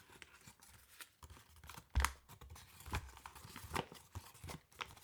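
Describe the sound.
Quiet paper crinkling and tearing as a letter is opened, with irregular rustles and one louder rip partway through.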